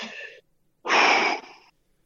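A person takes a deep breath in while holding a plant leaf: a short breathy sound, a pause, then a longer, louder airy inhale with a slight wheezy edge, alone without talk.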